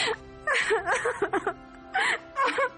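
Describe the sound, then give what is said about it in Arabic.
A girl with a broken leg cries and whimpers, giving several wavering, high, voiced sobs in short bursts separated by brief pauses. “أنت بتبكي ليه؟ أنا ببكي غصب عني”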